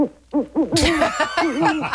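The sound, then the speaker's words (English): Owl hooting in a rapid series of short, arched, mid-pitched hoots, steady and fairly loud throughout. “Is that who Hedwig is, an owl? Is it? Yes.”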